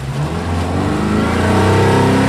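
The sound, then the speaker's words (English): A motorboat engine revving on the glassy water of the Potomac River: a loud, steady mid-pitched drone with a buzzing, harmonic-rich tone that swells slightly louder as it goes, with no voices. “opens up his motorboat on the glassy waters of the Potomac River.”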